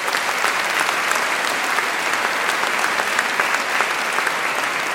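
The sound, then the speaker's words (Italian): Applause from the audience at a choir festival: dense, steady clapping that stays loud and even for the whole stretch, with no voices rising above it. “Un applauso a voi e grazie.”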